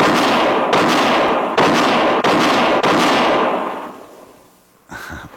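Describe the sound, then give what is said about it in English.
Several rapid pistol shots in a quick-draw shooting test. Each is a sharp, loud crack with a long ringing tail that runs into the next, then the sound fades away and a brief, fainter noise follows near the end. “that's mighty fine shooting”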